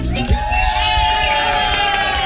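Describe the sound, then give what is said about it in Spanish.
A crowd of women shouts and cheers at a sandwich shop serving pork-crackling sandwiches during a live sports event, a dense, loud, continuous wash of voices with no pause. “Ustedes sabrán comprender que a esta hora de la tarde no están gritando tanto porque ya están disfrutando de sus riquísimos panes con chicharrón.”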